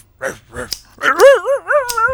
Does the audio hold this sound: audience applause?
no